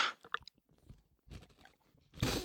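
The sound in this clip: Someone chews and crunches food with loud smacking. Short, irregular bursts of crackly crunching come in a few uneven clusters separated by quieter gaps, and the last burst at the end is the loudest, with no voices over it.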